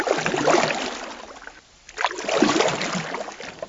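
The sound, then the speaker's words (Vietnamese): Water splashes and swirls as an oar paddles a small wooden boat out of a stand of sesbania plants on a pond, two sustained stretches of rushing, gurgling water separated by a brief quiet pause. “Quỳnh Mai ung dung quơ dầm nại chiếc xuồng lách ra khỏi đám điên điển, bơi thẳng.”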